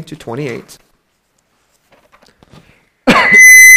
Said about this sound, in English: Sorry. Got a cough.